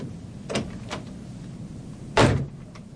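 A car door swings shut as someone climbs in, one heavy solid thump standing out clearly after a couple of softer knocks and handling clicks, with no talk over it.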